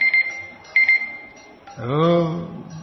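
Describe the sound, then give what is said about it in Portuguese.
A kitchen-style timer alarm beeps in short, high electronic bursts, a few repeated beeps with gaps between them, before a person starts talking. “Temporizador, perturbador.”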